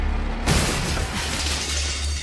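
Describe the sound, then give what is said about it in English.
Glass shatters as a car smashes through tall, double-wide glass front doors into a lobby in a game. A sudden loud crash gives way to a long, dense spray of breaking glass. “I will say that you are able to smash your car through the front door of Omnicorp.”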